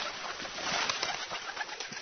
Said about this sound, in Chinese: 鸽子赶紧飞下去救蚂蚁，